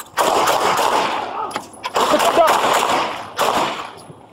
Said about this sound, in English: So they, man was shot by police who were responding to a call about a family fight in Mesa